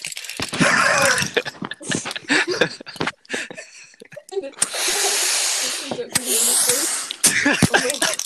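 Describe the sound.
An asthma inhaler puffs in two long, breathy hisses, with people talking, laughing and coughing around them.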